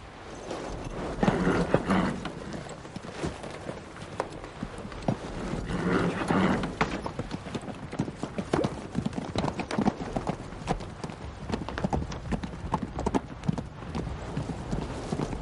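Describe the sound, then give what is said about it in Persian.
Hooves of a herd of livestock clip-clop steadily and continuously, many overlapping hoofbeats forming a dense, unbroken patter throughout. “شما ها گله را بیاورید.”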